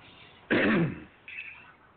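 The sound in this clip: Throat clearing caused by a tickle in the throat: one loud, harsh rasping clear of about half a second, heard alone with no talk.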